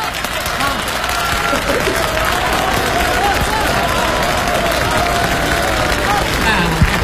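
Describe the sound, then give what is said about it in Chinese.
An audience applauds during a live comedy crosstalk routine, sustained dense clapping for about seven seconds with crowd noise and voices blended in. “知道大家为什么鼓掌吗？”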